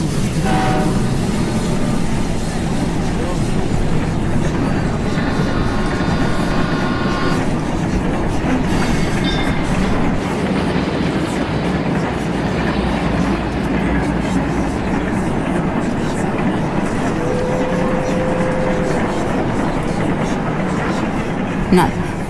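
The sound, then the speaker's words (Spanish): A train in motion gives a loud, steady rumble and rattle that runs through the whole stretch, while people talk over it. “¿Por qué estamos en este tren?”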